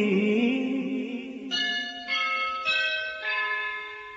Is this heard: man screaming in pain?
no